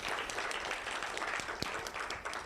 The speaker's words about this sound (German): Kleiner Applaus, Dankeschön.